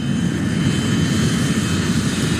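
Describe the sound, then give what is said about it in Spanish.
An airplane at an airport runway produces a steady, unbroken engine roar with a broad rumble that stays level throughout. “una vez que ya estamos listos para ser cargados, vamos a la pista desde donde nos van a llevar al avión.”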